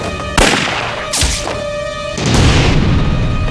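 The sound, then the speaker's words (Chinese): Gunfire: a few sharp, loud bangs, each with a brief ringing tail, against a steady tonal background. “开枪啊！”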